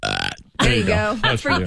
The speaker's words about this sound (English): Holding back a burp, I'm sorry. Let it go.